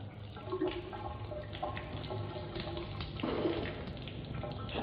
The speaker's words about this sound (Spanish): A la mañana siguiente, David se ducha.